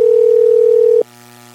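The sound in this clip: A steady telephone dial tone: a loud, pure continuous hum that holds for about a second, then cuts off abruptly, leaving a faint low buzz.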